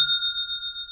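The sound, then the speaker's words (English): A single bright ding of an online store's sale notification chime, its clear ringing tones holding steady with little decay across the short clip, heard alone. “That is the sound of another sale on Shopify”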